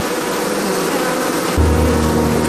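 Honeybees buzz at a hive of around thirty thousand bees, a dense continuous drone that thickens with a deeper, louder hum partway through.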